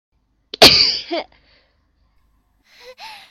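Sneezing, as if from a cold: a sharp, forceful burst with a breathy tail, followed after a pause by a second, fainter sneeze.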